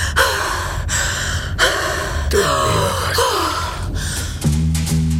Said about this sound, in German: Sie keuchte mir den Namen ihres Freundes entgegen